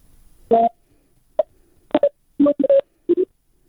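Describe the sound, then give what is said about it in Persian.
Telephone line tones after a phone call is cut off: several short, clean beeps in an irregular pattern, some single and some in quick clusters, with silence between them. “تلفن قطع شد.”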